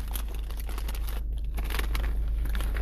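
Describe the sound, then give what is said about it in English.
Crunching from someone chewing popcorn: a dense, steady crackle of small crisp bites and crinkles that runs without pause, with no voices over it. “It tastes like I'm eating a corn on the cob, but the texture and everything is popcorn.”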